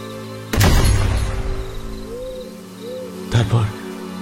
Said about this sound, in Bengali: হঠাৎ একটা কান ফাটা গুলির শব্দ হল।